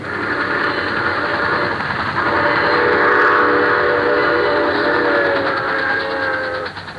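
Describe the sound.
A train hauled by a locomotive rushes past a railway switch point, a loud, steady rumble carrying a sustained high whistle-like tone throughout, holding level for most of seven seconds before dropping off slightly at the end.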